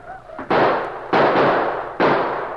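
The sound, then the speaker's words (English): Repeated rifle gunfire as a small band defends a post at night in a dramatised scene: a few loud, sharp blasts, each trailing off in a long rumbling decay, with no talk. “They reloaded and fired again and again, surrounding the post with a wall of hot lead.”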